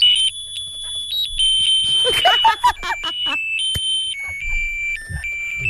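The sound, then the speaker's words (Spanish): A Chinese Christmas greeting card plays its electronic tune: shrill, stepped beeping tones hop between high pitches in a jittery melody, with a brief warbling passage in the middle and a low buzz underneath. “Lo mejor es que el audio se llama tarjeta de Navidad chino. Que no sé por qué chino.”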